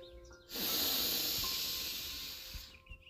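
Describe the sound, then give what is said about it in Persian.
Deep breath drawn in through the nose during a guided breathing exercise: a steady, airy hiss lasting about two seconds that fades off at the end. “مجدد با هم یه نفس عمیق میکشیم، سر بالا و عقب میره.”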